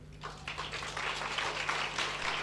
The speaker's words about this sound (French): Je voudrais d'abord qu'on applaudisse très fort